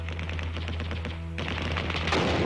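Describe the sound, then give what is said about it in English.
Rapid bursts of gunfire from archival footage of urban street battles as Israeli forces fought into Jerusalem, a steady crackling stream of shots over a low, constant hum. “The largely urban street battles in Jordan as the Israelis fought their way into the holy city of Jerusalem.”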